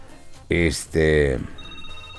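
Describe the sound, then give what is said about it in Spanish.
An outgoing telephone call rings on the line: two short, bright ring bursts close together, then fainter steady tones trail off. “Ahí está ya Juanito, nos dice que en estos momentos ya está timbrando.”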